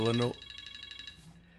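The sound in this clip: A mobile phone rings: right after a brief voice, a faint electronic ringtone plays as a rapid trill of repeating high pulses that lasts about a second and then stops.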